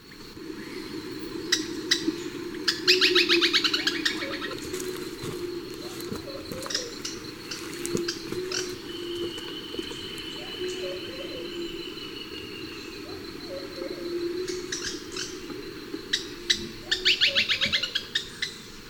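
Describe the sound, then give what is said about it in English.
Black-and-white Tody-Flycatcher calls come in bursts of rapid, high, clicking chirps, loudest near the start and end, while a low cooing call repeats softly underneath. “Black and White Toady Flycatcher, 1.”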